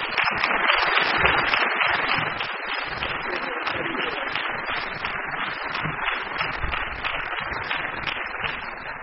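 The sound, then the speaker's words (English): Audience applause welcoming a guest speaker at a formal event, a dense, even crackle of many hands clapping that holds steady and eases slightly toward the end. “Please join me in welcoming Ruth Turner.”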